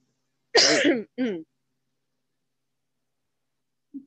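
Throat clearing in two short, rasping bursts, the first longer and louder than the second, followed by quiet.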